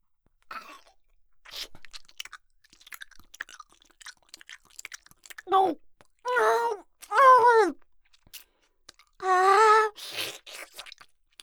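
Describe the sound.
Wet chewing and biting of meat, with soft crunches and mouth clicks, broken up by a few loud, drawn-out vocal groans of enjoyment between bites.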